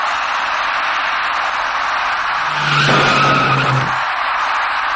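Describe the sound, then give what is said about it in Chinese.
Tires skid as a taxi brakes hard before rear-ending a slowing car, a shrill squeal of about a second and a half rising out of a steady background hiss. “驾车从后面开上来的这位出租司机没有注意到前面的车辆已经减慢车速，转眼过后，出租车的前部撞上了前车的尾部”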